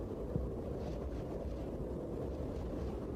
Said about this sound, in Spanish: el viento está creciendo tanto en intensidad que será necesario subir el volumen del directo para poder hacernos a una idea.